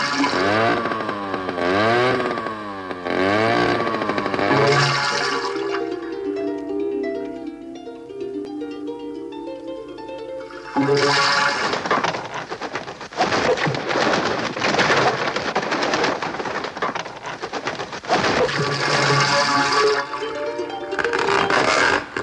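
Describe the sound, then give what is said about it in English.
Harp music broken up again and again by harsh, roaring noise like a motorbike revving, along with a watery wash. Loud bursts of noise frame a calmer stretch of plucked, ringing harp notes in the middle. “It's harp music, but it's periodically interrupted by these really horrible, harsh sounds. I think it's a motorbike revving. Yeah. And then some kind of watery sound as well.”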